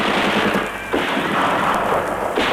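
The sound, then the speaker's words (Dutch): Heavy gunfire erupts during a police ambush on a tan Ford V8 on a road. A dense, continuous crackle of rapid shots stays loud throughout, with a brief dip near the first second before the volley resumes. “en daar werd flink geschoten.”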